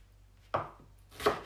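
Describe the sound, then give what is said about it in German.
A knife slices a bell pepper half lengthwise into strips, giving two quiet, crisp cuts against a board with a pause between them. “Dann wird die Paprika-Hälfte so in Streifen geschnitten, längs. Dann dreht man die quer,”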